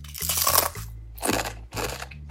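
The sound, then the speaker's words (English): Bites into a crunchy tortilla chip: three bursts of dry, crackling crunch separated by short pauses, with the first burst the longest and loudest. “Go ahead and take a bite of the tortilla chip. And what do you think it is, crispy or crunchy?”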